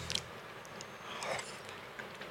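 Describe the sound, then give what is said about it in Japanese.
Soft chewing of cooked eggplant: faint, steady, moist mouth sounds with a few small clicks and squelches, quiet and continuous with no talk. “ナスが美味しすぎるんだよなちょっといただきます”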